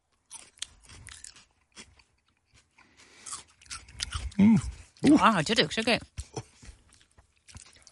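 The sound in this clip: Crunchy bites and chewing of a home-grown chili pepper from a 2024 terrace harvest, a few crisp crunches breaking out amid lively voices talking and reacting.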